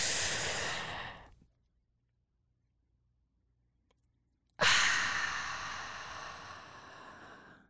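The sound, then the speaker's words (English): Slow, deliberate breathing: a long breath tapers off, followed by a few seconds of silence. A strong, airy breath then starts abruptly and fades gradually. “Inhale, 4 seconds.”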